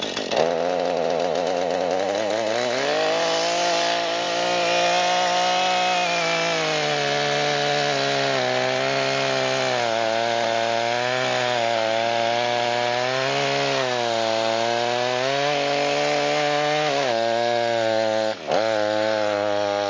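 A saw runs with a continuous, loud buzzing drone whose pitch wavers up and down. It keeps going for the whole clip and dips briefly near the end.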